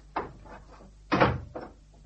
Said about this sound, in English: I'll have to look in the kitchen drawer.